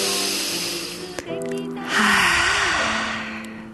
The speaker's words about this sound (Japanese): 腕や手の重さを感じながら呼吸をします。息を吸って、